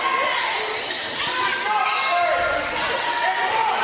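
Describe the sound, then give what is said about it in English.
A basketball is dribbled on the court during a high school game in the final minute, with repeated bounces under a man's continuous play-by-play commentary. “Dribbling around up top now.”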